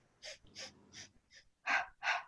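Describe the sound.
Deliberate breathing: a series of six sharp, breathy inhales and exhales in an uneven rhythm, the fourth faint and the last two noticeably louder and fuller, with quiet pauses between.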